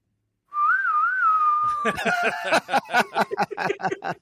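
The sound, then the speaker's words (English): Wavering, melodic whistling from a film scene, a tune of rising and falling notes heard alone for about a second and a half, then giving way to choppy, rhythmic bursts of sound. “Look at that whistle.”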